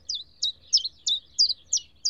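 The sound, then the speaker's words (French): Morning birdsong of common chaffinch and common chiffchaff in June: a steady series of about seven short, high-pitched chirps repeated at even intervals, clear over a faint low hum. “je me réveille avec le chant des oiseaux, comme à mon habitude. Je reconnais le pinson des arbres et le pouillot véloce.”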